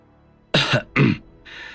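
Two sharp, throaty coughs in quick succession, loud and alone, with no other voices.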